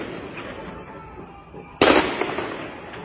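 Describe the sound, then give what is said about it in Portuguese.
Heavy-caliber gunfire and explosions ring out during an overnight shootout: faint background pops give way to one sudden, loud, sharp blast whose rumbling decay lingers afterward. “Barulhos de armas de grosso calibre foram ouvidos. Entre eles, armamento de uso restrito do Exército, como .50. Mas além dos tiros, explosões também puderam ser ouvidas.”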